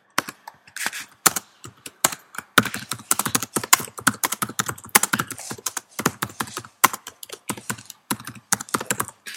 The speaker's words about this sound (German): ich schreibe hier gerade noch ein hm? Spontanthema auf, was mir gerade so eingefallen ist.